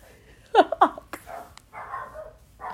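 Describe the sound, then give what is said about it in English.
A dog wails, starting with a few sharp, high yelps and moving into quieter, drawn-out whining cries. “I laugh and this dog started wailing. Like, I can't even laugh anymore.”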